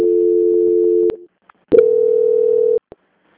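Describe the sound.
Telephone line tones during a call transfer: a steady tone that ends with a click, a short near-silent gap with faint blips, then a second steady, slightly higher tone that also cuts off with a click.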